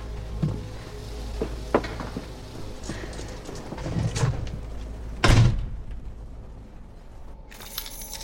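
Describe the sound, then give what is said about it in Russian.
A woman opens a door: a few faint clicks and handling knocks lead to a heavier thud, set against a low, steady background. “Женщина открывает дверь.”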